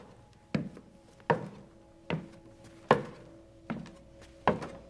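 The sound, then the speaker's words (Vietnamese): Heavy footsteps thudding along a hallway: six slow, evenly spaced dull thumps, each with a short ringing tail, over a faint steady hum. “Tiếng bước chân lúc này nó cứ thình thịch nghe rất rõ.”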